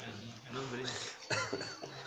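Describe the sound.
A man with a week-long cough gives a sharp cough or throat-clearing burst during a lecture. One abrupt explosive burst breaks into his voiced talk.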